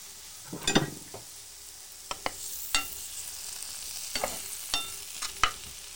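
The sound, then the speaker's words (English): A spatula stirs mushrooms frying in butter, with many light scrapes and clicks over a soft, continuous sizzle. “Just want to give that a quick stir. We've got a plastic spoon here. Got the spatula, sorry about that.”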